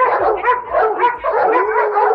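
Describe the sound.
Dogs encircling a man bark and yip in a quick, unbroken run of overlapping calls, fairly loud and with no voices.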